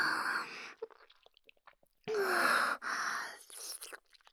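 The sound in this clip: Someone eats noodles with a few loud, wet slurping bursts separated by quieter gaps and small mouth noises.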